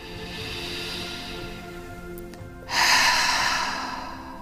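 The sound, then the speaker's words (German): A deep breath is drawn in through the nose and let out through the mouth during a guided relaxation exercise: a long, soft, airy inhale, then a louder, rushing exhale that slowly fades. “Atme nochmal tief durch die Nase ein und durch den Mund aus.”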